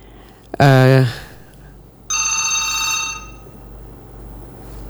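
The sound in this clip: Telephone ringing on a call-in line: a short, loud, low buzzing tone, then a brighter, steady ring that lasts about a second before cutting off.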